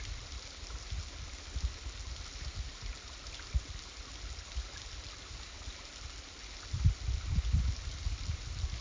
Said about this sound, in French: Sentez encore, encore, ce filet d'eau ténu qui se faufile entre les rochers, là où d'ordinaire coule une énorme rivière,